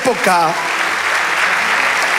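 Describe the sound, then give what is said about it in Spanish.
A church audience applauds during a worship service: a brief voice opens, then dense, steady clapping from many hands fills the remaining two seconds at a loud, even level. “vamos, dale ese aplauso al Señor.”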